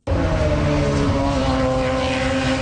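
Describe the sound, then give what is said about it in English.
IndyCar race cars running on a temporary street circuit in Markham, Ontario. The engines form a steady, loud roaring drone with a constant buzzing tone that holds throughout. “IndyCars are hitting the track for the first time in Markham, Ontario today.”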